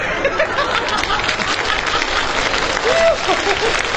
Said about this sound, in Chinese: 您还给他鼓掌。